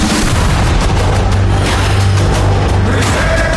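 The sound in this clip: Gunfire booms on command in a war film set after Pearl Harbor, a loud, dense and unbroken roar of blasts with no separate shots standing out.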